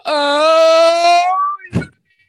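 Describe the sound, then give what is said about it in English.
A voice imitating loud crying and wailing: one long, sustained, high wail held at a steady pitch for over a second, then cut off and followed by a brief, breathy sob-like gasp. “That's how I sound when I cry.”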